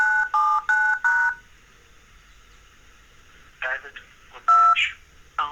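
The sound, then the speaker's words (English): Telephone keypad tones from an automated dialing sequence logging into a work voicemail system: four quick even beeps in a row, then after a pause a few more tones mixed with a brief automated voice. “that's how easy it is for me now to log into my voicemail system at work by just using an automated dialing sequence in one of my phone number contacts”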